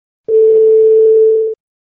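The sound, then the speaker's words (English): A single Skype voicemail beep: one steady mid-pitched electronic tone that holds for just over a second, loud and alone, starting and stopping abruptly. “The person whom you're trying to reach is currently unavailable. Please leave a message after the beep.”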